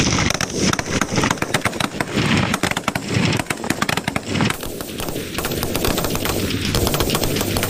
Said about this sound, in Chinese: 接下来要进行的就是步枪精度速射的对决，此时枪王群体四连已经做好了射击准备。 速射准备 开始射击。